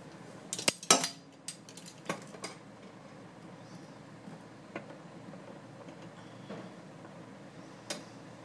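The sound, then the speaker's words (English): A half-teaspoon measuring spoon scoops garlic powder from a container with faint clinks and taps: a few sharp clicks early, then sparse soft ticks over quiet background. “I might as well just stick the half a teaspoon in there and just get out half a teaspoon of garlic powder.”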